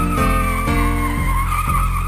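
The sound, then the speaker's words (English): A hearse's wheels squeal in a continuous, loud, strained tone over a steady rumble, pulsing at an even rhythm four times. “my good friend gave to me a hearse with its wheels a-squealing.”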